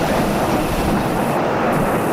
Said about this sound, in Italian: 3, 2, 1, ignition, and liftoff. Go.